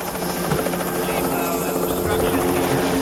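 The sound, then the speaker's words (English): A police helicopter's rotor and engine drone as it descends, a loud, steady, unbroken thrum with a buzzing edge that holds throughout. “A police helicopter lowers as Ned pulls up.”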